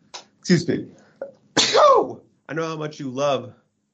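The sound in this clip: Two sharp human sneezes in quick succession, the second longer and more forceful, followed by a person speaking briefly.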